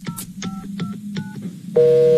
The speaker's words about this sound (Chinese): 赶紧打电话呀。